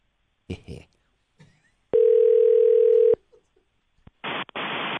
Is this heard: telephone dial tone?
yes